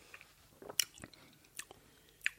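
A pear-hemp gummy bear being chewed, quiet moist mouth sounds broken by a few sharp, crunchy bites.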